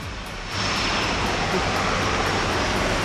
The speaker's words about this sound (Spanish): Está tomando velocidad ahora mismo el avión de la Fuerza Aérea, se dirige dirección este-oeste. Mira, escucha, este es el sonido.